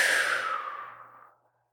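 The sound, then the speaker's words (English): A slow, gentle breath released after a deep, held nasal inhale: a soft, airy exhale that thins and fades steadily to silence within about one and a half seconds. “take a deep inhale through your nose, filling all the way up. Go a little bit deeper than you would normally go. Hold that. And then you can gently just exhale and release.”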